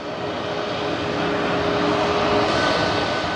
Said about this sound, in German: Die Maschine aus der pakistanischen Hauptstadt Islamabad landet nach Zwischenstopps in Dubai und Thessaloniki in Erfurt.